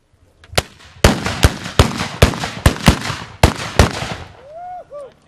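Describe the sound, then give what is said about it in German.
Many sharp, booming reports from hand-held ceremonial black-powder mortars fired at a salute-shooting event, crackling in an irregular ragged volley, each blast loud and abrupt with a short decaying tail, before a quieter end. “Doch im Zentrum stand natürlich das Böllerschießen. Die Handböllerschützen wurden übrigens kommandiert vom Vizepräsidenten des Bundesverbandes der Böllerschützen, Klaus Oswald.”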